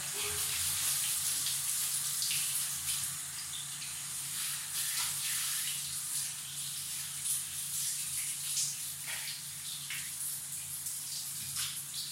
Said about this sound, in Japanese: でこうやって、シャワーで流して、